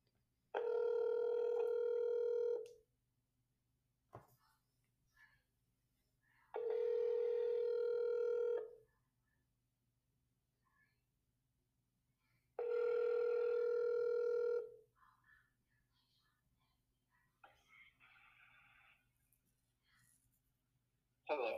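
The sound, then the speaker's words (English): A telephone rings while an outgoing call is being placed, three long, steady ringback tones of similar length separated by quiet gaps, with faint handling noises between the rings. “I'm going to call Brian. We'll see if he answers.”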